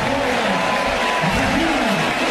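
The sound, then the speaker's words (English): A crowd at a Clemson football game applauds as a quarterback enters the game, a steady wash of clapping and crowd noise that stays even throughout, with a voice running over it. “Reynolds gets a nice round of applause from the faithful that are here.”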